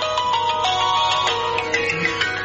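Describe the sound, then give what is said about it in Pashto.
A mobile phone ringtone plays a bright, repeating electronic melody of clear tones, steady and moderately loud, with no talking over it. “د موبایل زنګ دی، ځواب ورکړه.”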